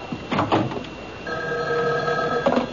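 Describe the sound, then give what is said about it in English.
A telephone rings once: a bright, steady-pitched electronic trill about a second long, fairly loud and heard on its own. “Excuse me, that's my phone.”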